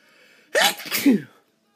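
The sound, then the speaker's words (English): A person sneezes once, a sudden loud, breathy burst with a voiced two-part shape, preceded and followed by near silence. “the way you sneeze, excuse me,”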